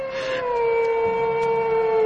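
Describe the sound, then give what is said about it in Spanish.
A wolf howls at a window in one long, loud, sustained tone that drifts slightly downward in pitch, heard alone. “El lobo. El lobo está ahora en la ventana.”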